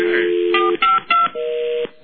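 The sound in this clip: A telephone is dialed: a steady dial tone gives way to a few short touch-tone beeps, then a longer electronic tone sounds alone until it cuts off.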